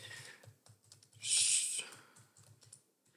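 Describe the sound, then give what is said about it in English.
Typing on a computer keyboard while entering a course topic into a box: many quick, light key clicks in an uneven rhythm, interrupted midway by a short burst of loud hiss. “I'm gonna type this in here.”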